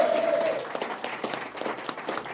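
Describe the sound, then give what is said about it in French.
An audience applauds a guest: a dense, steady wash of many hands clapping at an even level throughout. “Je vous demande un tonnerre d'applaudissements pour Guillaume, qui a fait les premières saisons du podcast.”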